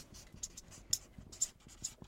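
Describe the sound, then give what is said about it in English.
Writing on a board during a classroom-style business session: a few short, dry scratching strokes in quick succession, faint and uneven, with no talking. “Let me write that up there.”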